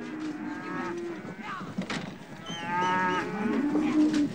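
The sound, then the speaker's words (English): Cattle moo repeatedly as cows file up a ramp into a truck bed: low, drawn-out calls, some rising in pitch, overlap one another without a break over a steady rumble of animal noise. “The back panel slides open and cows file up a ramp toward the bed.”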